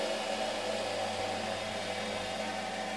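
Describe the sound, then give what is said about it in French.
A yarn winding machine runs in a textile mill, with a part moving up and down to spread yarn over the bobbin's height; a steady, even whirring hum continues without breaks or voices. “Ouais, on a une partie sur la machine qui monte et qui descend pour répartir le fil sur la hauteur de la bobine.”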